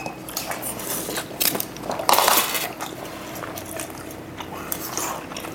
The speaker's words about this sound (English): Wait, I gotta get a good bite. God, it's all slipping and sliding. Yeah, it ain't even sticking on my fork.